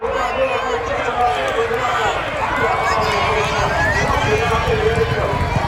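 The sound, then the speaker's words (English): Crowd roar and galloping hooves during a flat horse race at York Racecourse, a loud, continuous wash of cheering and drumming hoofbeats with voices talking over it throughout. “Okay, that is the sound of last year's Ebor Festival.”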